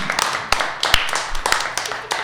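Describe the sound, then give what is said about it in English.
Audience clapping after a storytelling performance on stage, many uneven claps with a few sharp, loud hand strikes standing out over a thinner patter of softer ones. “Let's give Brandon a round of applause.”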